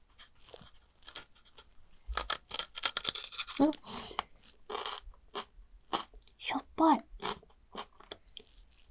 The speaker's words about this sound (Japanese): 塩が超かかってる根元の部分食べてみるね。